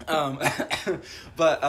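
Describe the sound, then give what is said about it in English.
A person clears their throat and coughs with a chip stuck in the throat, making a few rough, raspy voiced bursts in quick succession. “Excuse me. I have a chip stuck in my throat right now.”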